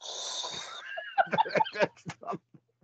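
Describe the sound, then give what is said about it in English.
A voice imitating loud mouth breathing: a wheezing, rasping breath lasting about a second, followed by several short voiced bursts that fade out. “When you say mouth breathers, you're talking about ones that make an audible noise like that?”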